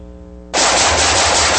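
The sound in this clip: Automatic gunfire erupts suddenly after a brief quiet moment and continues as a loud, dense, unbroken burst of rapid shots to the end, with no voices.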